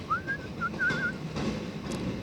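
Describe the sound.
A person whistles a short melody: a few wavering, mid-pitched notes with a brief pause between phrases, then quiet background sounds.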